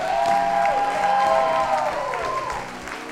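An audience claps steadily for singers and musicians. The dense applause holds at an even, fairly loud level through the whole clip.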